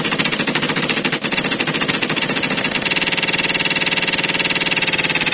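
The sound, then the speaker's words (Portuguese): Machine-gun fire as a sound effect at a live party show: a loud, continuous, distorted rattle of rapid shots with an echoing texture that turns into a tighter, even faster pulse partway through. “Já tá todo armado, tá pronto pra atirar. Pega a metralhadora.”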